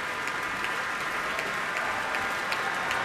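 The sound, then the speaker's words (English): Enthusiastic applause from a concert audience at Orchestra Hall in Minneapolis after an orchestral program of film music: a thick, steady roar of clapping, sustained and even, with occasional brighter individual claps popping out of the mass. “Enthusiastic audience here at Orchestra Hall in Minneapolis.”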